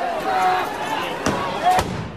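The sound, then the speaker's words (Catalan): Tear gas canisters fired by federal agents at protesters outside the White House: two sharp, loud bangs in the latter half, over background talk. “De sobte, els agents federals han començat a llançar gasos lacrimògens contra els manifestants, sense cap justificació i cap avís. Just uns minuts després, i enmig del soroll de les bombes lacrimògenes, Donald Trump apareixia al Rose Garden de la Casa Blanca en directe.”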